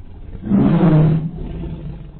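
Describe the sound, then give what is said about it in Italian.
A tiger, getting up from where it crouched, gives a single low, rumbling growl that swells for under a second and then sinks into a quieter, steady rumble. “La tigre, che stava accovacciata nella stanza accanto, s'alzò mugolando e venne a collocarsi vicino al padrone.”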